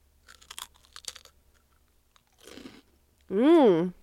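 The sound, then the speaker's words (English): Crunchy bites into a Flamin' Hot Funyuns onion ring chip pulled from a snack bag: a few crisp, crackling crunches, then a quieter chewing burst, ending with a loud hummed voice sound of agreement. “Okay, so I'm like feeling it. It's like an onion ring, like a Funyun kind of chip.”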